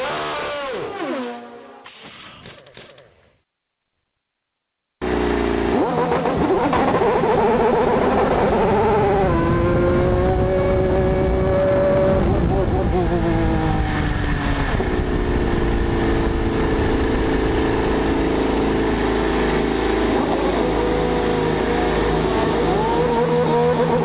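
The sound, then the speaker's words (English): Race car engines at Indianapolis 500 qualifying. After a short burst of sound and a brief silent gap, a loud, sustained, high-pitched engine whine rises and drops in pitch as the car shifts through gears. “It's the Indianapolis 500. It's qualifying. This is what you hear.”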